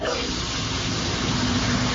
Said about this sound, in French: Bah ouais, là je suis sous la douche donc je peux pas répondre hein